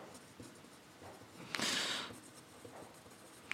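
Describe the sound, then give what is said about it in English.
A pen scratches faintly across paper as something is written down by hand: one longer stroke in the middle, with small scattered scratches before and after. “I'm gonna write this down.”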